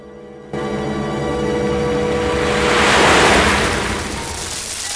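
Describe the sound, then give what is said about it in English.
Stream water swirls and washes over a weir in a steady rushing roar. The sound swells louder midway, then eases back, with no voices. “A short distance away, the photo of Orson Welles lies on the surface of the stream, then gets washed over the weir into the swirling waters.”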